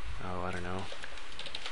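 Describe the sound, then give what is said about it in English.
Typing on a computer keyboard: a few soft, scattered clicks follow a brief voiced sound. The keystrokes are faint and irregular. “Sorry about my dumb typing.”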